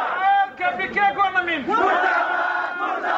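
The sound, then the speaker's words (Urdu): Protesters, many of them students, chant slogans at a protest outside the Quetta Press Club. Loud voices rise and fall in rhythmic bursts, then swell into a sustained, massed shout. “ادھر کوئٹہ میں بھی مشعل خان کی ہلاکت کے خلاف احتجاجی مظاہرہ ہوا۔ شرکا نے نعرے لگاتے ہوئے کہا،”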